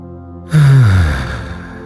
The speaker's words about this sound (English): As we exhale, take a long, slow, deep breath in.